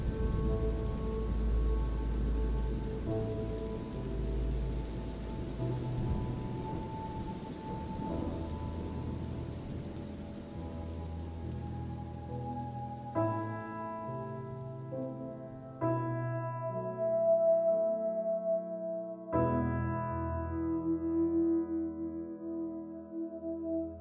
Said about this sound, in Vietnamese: mặc cho mưa rơi ướt người